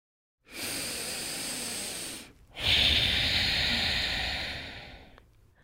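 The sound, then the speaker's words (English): A slow, deep breath from a therapist leading a calming exercise: two long, soft breathy hisses separated by a brief pause, the second louder and fuller before it gradually fades away. “Let's take a deep breath, guys.”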